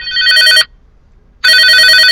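A telephone rings with a loud, bright electronic bell trill in two bursts, separated by a short silence; the second ring is still sounding at the end.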